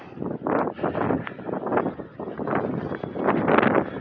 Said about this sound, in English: Whew, and it is windy, and it was snowing last night.